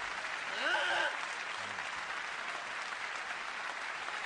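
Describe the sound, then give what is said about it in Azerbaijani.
Audience applause at a spoken-word event: a dense, steady wash of clapping hands that holds at an even level throughout, with a brief brighter swell of crowd voices early on. “Təşəkkür. Alqışlarınıza qurban. Sağ olun, dayanın. Əyləşin.”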